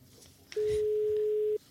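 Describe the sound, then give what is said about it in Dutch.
A telephone ringback tone sounds as a call is placed: one steady, mid-pitched tone lasting about a second over faint background noise. “En die gaan we even bellen.”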